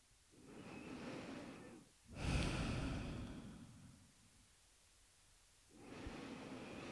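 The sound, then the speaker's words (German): Deep breathing in and out, a few slow, airy breaths with soft hissing inhales and exhales separated by short pauses of near silence, unaccompanied by voice. “Mit dem, was ist, ein paar Mal tiefer ein- und ausatmen.”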